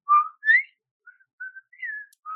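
A person whistles a short, high tune imitating the postal girl's whistle from a video game. A few clear bright notes, the second rising, are followed by softer, thinner ones, with no talk.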